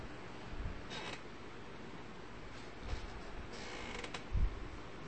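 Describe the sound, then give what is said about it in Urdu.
Two chairs are moved and set side by side, heard as a few faint, brief creaks and soft knocks over a low, steady background hiss. “یہاں دونوں کرسیاں وہیں لگا دیں ساتھ ساتھ”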